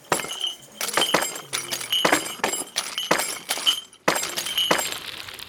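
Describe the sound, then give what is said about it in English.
Glass potion bottles thrown by witches smash all around, many sharp shattering crashes with bright clinking shards, loud and following one another in quick succession with no voices. “They miss and the bottles smash all around them.”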